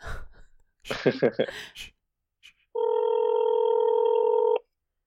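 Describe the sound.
A telephone call on speakerphone: a brief breathy vocal sound and a short electronic blip come first, then a single steady ringback tone holds for nearly two seconds and stops abruptly.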